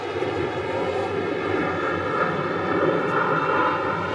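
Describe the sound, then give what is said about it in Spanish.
An airplane passing overhead during a baseball game: a steady droning engine roar with layered humming tones, holding at an even loudness throughout. “Ahí viene el otro avión.”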